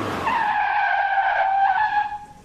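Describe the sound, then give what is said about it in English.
A vehicle's tires squeal as it skids to a stop: a single high, steady screech lasting about two seconds before it fades out, with no voices. “why don't we stop this vehicle? Good thinking. Stop!”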